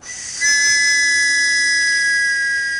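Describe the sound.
A signal whistle is blown in one long, shrill blast. It rises abruptly and holds steady to the end, with a breathy hiss underneath the piercing tone.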